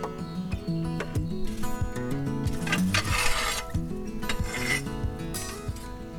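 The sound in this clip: Embers being moved around inside a wood-fired oven with the door off make rough scraping and rasping sounds, with clinks of metal against the oven floor, in many irregular strokes at moderate loudness.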